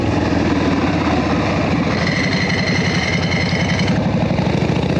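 Motorcycle engine running with a foot clutch and jockey shift setup, a loud, steady rumbling idle that holds on its own throughout with no voices.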